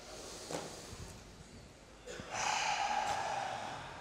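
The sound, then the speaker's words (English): People take a deep breath in together, a soft airy rush that swells in the second half and holds steady, with a few fainter breaths before it. “So, everyone take a deep breath in.”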